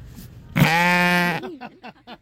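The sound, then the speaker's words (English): Scout, a sheep at a county fair, lets out one loud, long, wavering bleat, and brief talk follows. “Yeah, that's a sheep, and I'm standing with its owner, Katrina. Tell me about your animal. His name is Scout. Scout, say hi.”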